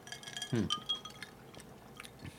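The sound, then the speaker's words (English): Drinking glasses clink together in a toast: one bright clink rings out briefly with a short glassy tone. Soft liquid and handling noises follow, all quiet, with no voices. “So we're going to cheers here, some clinkies, get some actual reactions to us.”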